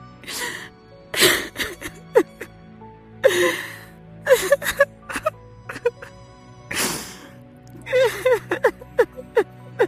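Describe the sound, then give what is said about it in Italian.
A woman bursts into tears, sobbing in loud, uneven bursts of gasping breaths and high, shaky whimpering cries, broken by short pauses. “La moglie di Simon Pietro scoppia a piangere.”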